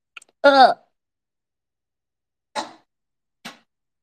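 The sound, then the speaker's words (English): Throat clearing: a short voiced burst with a falling pitch, then after a pause two brief raspy bursts, each separated by silence. “That was another snot out of my throat moment.”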